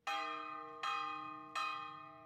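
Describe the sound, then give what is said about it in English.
Church bell ringing for Sunday Mass: three loud, evenly spaced strikes, each a bright metallic clang with rich overtones that rings on and slowly fades before the next blow. “The murders don't stop on Sunday as the bell for Mass rings at his Church of the Divine Providence.”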